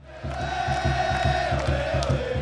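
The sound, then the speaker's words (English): Crowd cheering fills Qwest Field at a sold-out Seattle Sounders soccer match: a loud, steady roar with even, rhythmic low thumps pulsing beneath it throughout. “Here at Quest Field, where the Sounders play, the place has the feel of a World Cup soccer final. Every seat is sold out, and the cheering is deafening.”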